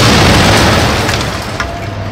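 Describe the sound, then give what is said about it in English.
A falling television set crashes heavily onto the ground among shoppers, smashing into glass, metal and plastic: one loud, dense, boomy crash that fills the whole moment and fades only slightly. “just a moment before the plummeting television set smashed into the ground mere inches from where Kris was standing”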